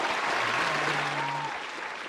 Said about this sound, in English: Give it up for Ryan, studio audience.